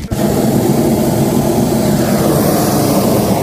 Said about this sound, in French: Donc, l'air chaud, 2-3 petits coups de brûleur, hop, et on décolle.